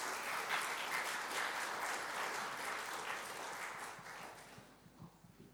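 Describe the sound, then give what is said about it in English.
An audience applauds to welcome a guest onto a stage, dense steady clapping that holds at an even level, then thins and fades toward the end. “So please give a very warm welcome to Fiona Dewhurst as she comes out.”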